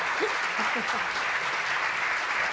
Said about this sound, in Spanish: Bueno, gracias por los aplausos.